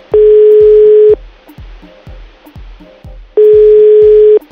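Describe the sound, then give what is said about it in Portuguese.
A telephone line tone after a dropped call gives two long, steady electronic tones, each lasting about a second, separated by a pause. A low rhythmic thumping runs underneath throughout. “Caiu a ligação.”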